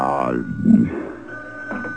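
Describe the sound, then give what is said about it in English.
A telephone ringing after it was supposedly taken off the hook: a sustained, high bell-like tone runs under voices talking over it. “What's that? I thought you took the phone off the hook. I did. Maybe it's the phone company. Don't answer it.”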